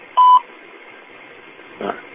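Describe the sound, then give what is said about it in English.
Telephone keypad tones as someone dials back into a conference call: two brief, pure beeps over a second apart, each loud against faint, thin line hiss. “Maybe dialing back in.”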